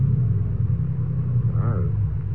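A choked car motor running rough, giving a loud, steady low rumble with uneven pulsing throughout.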